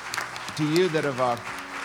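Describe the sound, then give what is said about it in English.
A church audience claps in a steady patter of applause, while a prominent voice rings out loudly over the middle of the clapping. “I just want you to clap for the people that have said yes”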